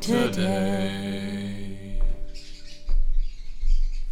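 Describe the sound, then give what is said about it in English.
Wild birds call outdoors in Queensland, Australia, near Noosa, among palm trees. Fluttering high chirps and squawks come in a few short bursts after a sustained tone fades away. “Now, those are the birds. Yes. They are welcome.”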